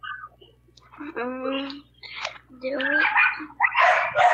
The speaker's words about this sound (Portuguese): Eita, o cachorro tá assim, olha aí, o cachorro tá. Estão brincando os cachorros aí, viu?